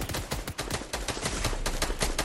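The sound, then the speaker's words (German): Rapid gunfire in the video game Fortnite, many sharp shots rattling off in quick succession, fairly quiet and with no talking. “Oh, jemand hat ja, auf mich geschossen.”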